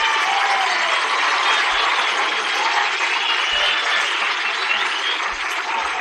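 Audience applause at the Grand Ole Opry in 1952, welcoming the governor of Florida. The clapping is a steady, dense wash that sounds thin and band-limited, with no pauses.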